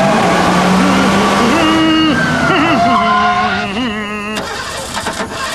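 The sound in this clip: A car engine starts amid a loud, droning tone with wavering pitch that continues throughout, ending in a noisy burst in the final seconds.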